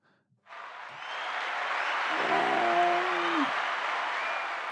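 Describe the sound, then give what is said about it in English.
Round of applause sound effect played from a soundboard: dense, steady clapping bursts in after a brief near-silent moment and holds at an even, fairly loud level until the end. “I don't know if I have a round of applause on my little soundboard here. I do.”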